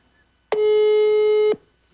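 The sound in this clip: A single ringback tone sounds on a telephone call. It is one steady, buzzing ring lasting about a second, heard alone with quiet line hiss before and after.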